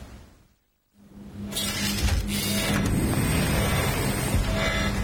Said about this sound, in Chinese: 方总，这里风大，我们进去吧。